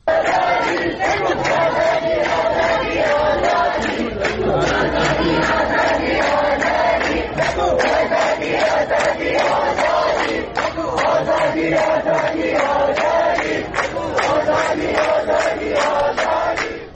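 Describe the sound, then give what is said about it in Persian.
Protesters chanting slogans together, a dense and loud crowd roar that stays steady and unbroken throughout, with voices merging into rhythmic massed shouting. “دارن شعار میدن که هر 1 نفر کشته شه 1000 نفر پشته شه”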